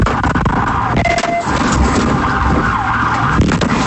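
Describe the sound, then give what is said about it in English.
Sirens wail during a police vehicle pursuit in Fernandina Beach, with wavering siren tones over a loud, continuous rush of engine and road noise. “That sound from a vehicle pursuit in Fernandina Beach.”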